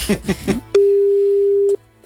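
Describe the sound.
A telephone call tone sounds during a phone call: one steady, unbroken note at a constant pitch lasting about a second. Brief talk comes just before it.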